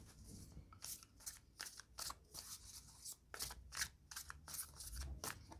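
Tarot cards shuffled during a reading, with many quick, soft papery riffles and flicks in an irregular run, quiet throughout.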